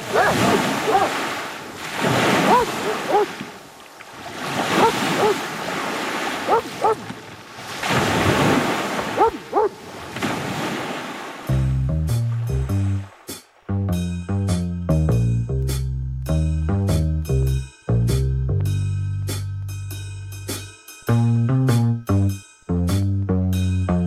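Sea waves surging and breaking in a few heavy, rhythmic swells with gusty wind noise, before music takes over for the second half.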